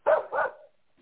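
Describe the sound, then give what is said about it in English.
Dogs bark twice in quick succession, two short, mid-pitched woofs followed by silence. “But bark, bark, my dogs are obnoxious.”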